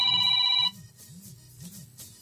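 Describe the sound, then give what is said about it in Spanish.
Telephone ringing: a bright electronic tone sounds for under a second, then a quiet, low warbling pulse repeats a few times at a steady rhythm. “Ah, ya están llamando, qué bueno.”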